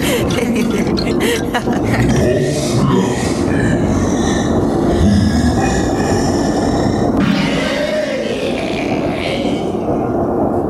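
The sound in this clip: A ride train rolls on rails through a spooky witch-themed track, making a dense, loud, continuous rumbling roar throughout, with grunt-like noises mixed in.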